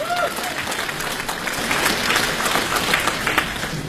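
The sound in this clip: Audience applause welcoming comic crosstalk performers onto a stage: steady, dense clapping from a crowd that holds at an even loudness throughout, with no letup.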